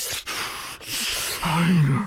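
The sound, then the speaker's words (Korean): A voice imitates Darth Vader's heavy breathing with a few loud, hissing breaths split by brief pauses, the last one carrying a rough, groaning tone. “그 다스베이더가 주는 그 막 숨소리 막 크게 나고”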